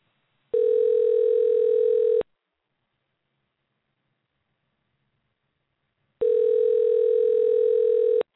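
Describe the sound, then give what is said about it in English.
Telephone line tone as a call is dialed out: two steady, loud buzzing tones, each about two seconds long, separated by roughly four seconds of silence. “I got to make this call back again. Okay. And dialing out now.”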